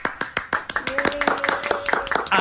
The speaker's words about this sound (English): Big round of applause for Cooley.